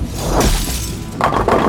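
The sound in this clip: A skeleton's bones break apart and clatter after a rod strikes it: a loud crashing impact, then a short lull and a few more sharp, rattling bursts.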